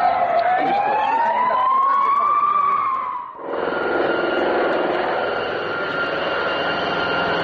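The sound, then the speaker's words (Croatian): A siren wails over loud, continuous street noise on Kneza Miloša street just after a motorcade carrying the US vice president passes. The siren's tone gives way to a broad, steady roar of engines and traffic. “Atmosfera u ulici Kneza Miloša neposredno po prolasku kolone sa američkim potpredsjednikom.”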